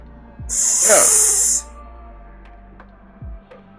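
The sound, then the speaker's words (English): A voice imitates a cat hissing: one long, sharp, breathy hiss of about a second, loud and airy, then fading to quiet. “The cat hisses at him.”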